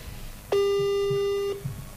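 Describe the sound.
A telephone busy signal: one steady, buzzy tone that lasts about a second over faint background noise.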